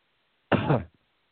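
A single short, harsh cough from someone whose drink went down the wrong pipe, one abrupt throaty burst of under half a second that stands alone against silence.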